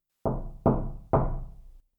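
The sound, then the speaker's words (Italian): Three violent, heavy knocks on a bedroom door, evenly spaced and booming, each decaying briefly before the next, with nothing else heard. “si sveglia all'improvviso a causa di tre violentissimi colpi dati nella porta di camera.”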